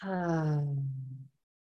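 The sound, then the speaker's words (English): A deep voiced sigh breathed out through the mouth during a guided breathing exercise: a single long exhale that falls slowly in pitch and fades out, followed by silence. “Let's all take three deep breaths in together, breathing in through our nose and exhale, sighing out of our mouth.”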